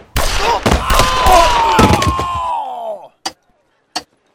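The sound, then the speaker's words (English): Two sharp, loud pistol gunshots about a second apart ring out during a target-shooting contest with tin cans set on posts. They follow a few seconds of dense, loud noise with a falling tone. “Smoke opened his hand to let the rock fall, and Matt drew his pistol.”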